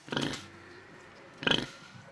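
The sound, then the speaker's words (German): Swabian-Hall piglets grunting as they leave their stable for the first time: two short, rough, quiet grunts separated by a pause of about a second. “Andere Tiere, andere Tonlage. Die schwäbisch-hellischen Juniorschweine dürfen heute zum ersten Mal den Stall verlassen.”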